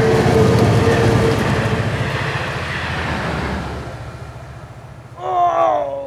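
A train rumbles loudly and steadily with a broad, noisy roar that eases slightly over time. A short, higher tonal burst sounds near the end.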